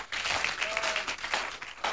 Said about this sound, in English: Give the Lord a clap of hands.